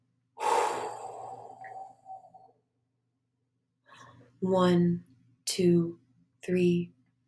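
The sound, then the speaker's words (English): A deep breath out, a long, soft, airy exhale lasting about two seconds, followed after a pause by a person speaking in a few short bursts. “And deep breath out for 5 seconds.”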